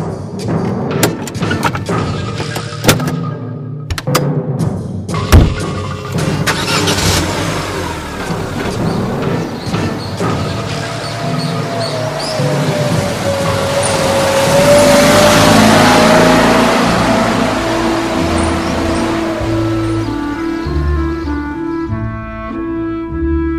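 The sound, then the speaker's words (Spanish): A car engine runs and accelerates: a droning mid-pitched motor with a whine that rises and swells for several seconds, following a few earlier clicks and knocks, with no voices. “Subamos al coche.”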